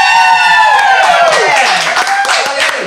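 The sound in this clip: Studio audience cheering and clapping at a live taping, with loud whoops and shouts sliding downward in pitch over a continuous patter of claps.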